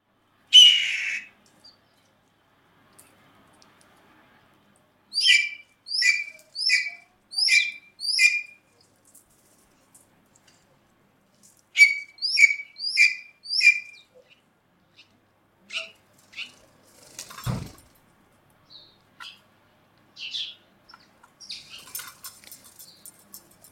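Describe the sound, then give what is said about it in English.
Blue jay calls at Presque Isle Provincial Park, Ontario: two bursts of several harsh, harmonic calls, then scattered fainter calls, a sharp knock and a short rustle near the end, with quiet pauses between. “Blue Jay.”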